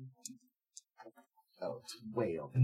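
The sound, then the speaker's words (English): Dice thrown across a table for an initiative roll in a Mage: 20th Anniversary Edition tabletop game, a few light scattered clicks and rattles, followed by people talking. “Okay, so we're going to roll initiative now. I'm throwing my dice all over.”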